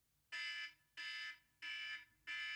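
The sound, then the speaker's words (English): An alarm sounds to mark the end of a five-minute time limit: four loud, evenly spaced buzzing blasts, each lasting under half a second, with the last one cut short. “The bell, an alarm will go off after 5 minutes, and it will sound like this.”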